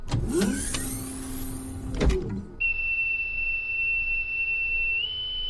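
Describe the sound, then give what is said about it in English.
A spaceship hatch opens after pressurization, starting with a mechanical whirring and sweeping tones. A steady, high whistling tone then takes over and holds, stepping slightly higher near the end. “Pressurization is complete. Hatch opening.”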